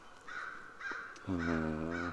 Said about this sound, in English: Okay, that's not much from American Crow, Corvus brachyrhynchus. Time is 05:59 hours, and the bird's calling from a stand of Scotch pine.